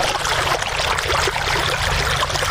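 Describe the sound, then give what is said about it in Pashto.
Water rushes and splashes steadily from deep wells where farmers pump it up with solar panels and machines in Sayed Abad district, Maidan Wardak province. The loud, continuous gushing has no pauses and no voices. “دا د میدان وردک ولایت په سید آباد ولسوالۍ کې د جوړو څاګانو اوبو دي چې بزګران یې د لمریزې هندارو او ماشینونو په مرسته راپورته کوي.”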